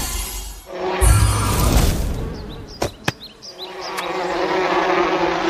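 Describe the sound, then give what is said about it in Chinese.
Wasps (hornets) swarming near beehives, a loud continuous insect buzz with whining passes, overlaid by sharp clattering cracks and busy noisy activity throughout. “是马蜂， 它们好像要攻击蜂箱。”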